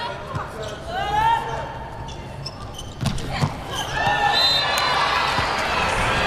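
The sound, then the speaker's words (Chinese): A volleyball serve in a match: a few sharp ball thuds ring out over crowd murmur, while commentators talk throughout. “唐鑫来发球。”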